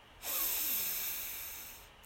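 A person breathes in deeply during a calming breathing exercise: one long, airy inhalation that rises quickly and then slowly fades over about two seconds, heard alone with no talk.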